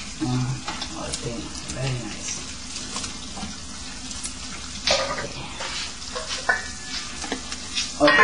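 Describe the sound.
Food simmers in a pan seasoned with salt and apple sauce or fruit juice, giving a steady, hissing sizzle with scattered stirring scrapes. Faint voices come and go under the cooking noise.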